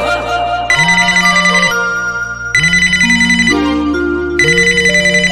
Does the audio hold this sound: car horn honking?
no